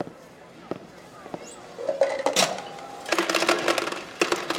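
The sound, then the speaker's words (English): An ice machine dispenses ice with a brief hum and whine, then bursts into a loud, rapid clatter of many tumbling cubes, with voices talking over it. “get some ice from the machine”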